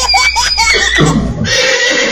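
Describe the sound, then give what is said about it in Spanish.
A mare neighs: a loud, wavering whinny of several quick pulses, followed by a lower, rougher stretch of noisy breath toward the end, with no talk. “Te está llamando la yegua. La yegua te llama, contéstale.”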